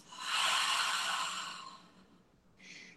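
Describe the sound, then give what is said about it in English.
A slow, deep breath during a relaxation exercise: a long, soft, airy rush of air lasting over a second that gradually fades, followed by a short, quieter breath sound. “slowly inhale through your nose, filling your belly, expanding your rib cage, and filling all the way up to your collarbone. And then letting all the air out your mouth.”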